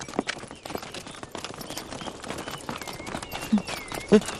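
Horses' hooves clip-clopping as riders set off, a quick, uneven patter of hoofbeats with a couple of louder bursts near the end.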